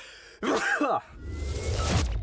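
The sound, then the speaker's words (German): One person sneezes once, a short, loud, voiced burst, followed by softer breathy noise. “Oh, ich muss niesen.”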